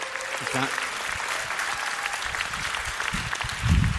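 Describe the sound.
Audience applause welcoming a church elder onto the stage, a steady wash of clapping that holds throughout, with a voice breaking in near the end.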